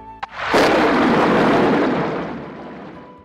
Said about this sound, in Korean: 블레셋 군대가 공격을 시작하기도 전에 큰 천둥 소리가 나고 폭풍우가 몰아닥친 거예요.